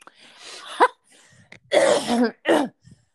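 A person clears their throat with a few rough, gravelly bursts: a low rumble first, then a couple of louder, harsh rasps in quick succession.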